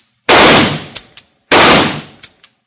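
Two loud rifle shots, fired at two men in a canoe on a lake in a western drama. Each is a sharp blast with a long decaying tail, followed by a couple of faint short clicks.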